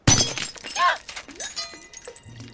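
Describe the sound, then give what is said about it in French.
A fake ruby made of glass shatters with a sudden loud crash at the start, followed by a quieter stretch of scattered clinks and rattles as the pieces settle. “Vous en avez la preuve, car un vrai rubis ne se casse pas.”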